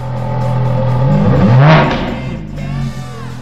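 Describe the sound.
A Ferrari sports car engine revs, its deep, loud drone climbing sharply in pitch to a brief peak and then settling back to a steady throaty rumble.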